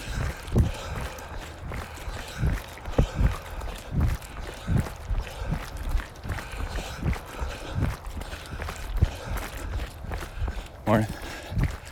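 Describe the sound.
Jogging footsteps of an old man in the morning: a steady run of soft, low thuds at an even running pace, with people talking faintly over them.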